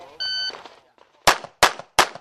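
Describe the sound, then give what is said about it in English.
Three sharp, loud gunshots crack in quick succession at a shooting obstacle course with targets at each station, preceded by a short electronic beep. “an obstacle course where you go from station to station shooting at targets”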